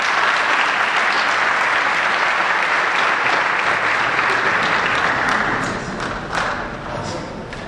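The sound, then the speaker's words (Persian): An audience applauds in a dense, steady patter of many hands clapping, then gradually thins and grows fainter toward the end. “تشریف بیاریم، دست بزنیم برای عزیزان.”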